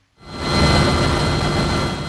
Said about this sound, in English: In the skies over Port Moresby, the Australian Defence Force is conducting practice helicopter flights.